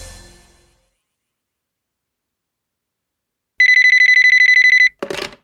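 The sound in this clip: A telephone rings in a single loud burst of rapid electronic trilling lasting just over a second, alone in silence, followed by a brief noise just after it stops.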